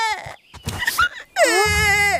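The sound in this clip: A child cries over a broken toy robot, a loud, sustained wail with wavering pitch that fills the second half after a stretch of talking.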